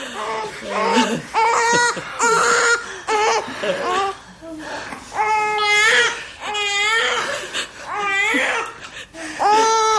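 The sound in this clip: A newborn baby cries just after delivery as it is placed on the mother in a hospital birth scene. The cry comes as loud, high, wavering wails in repeated bursts separated by brief pauses.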